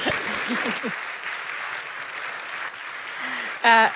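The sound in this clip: An audience claps softly to welcome a guest at a church service. The faint, steady patter of applause sits between a brief voice at the start and a short voiced sound near the end.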